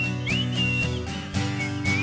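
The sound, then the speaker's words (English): A person whistles at a live show in a sports bar, a thin, high, wavering tone that slides up and down in short phrases over a steady, droning background. “Yeah, I'm whistling too. My lips are getting tired.”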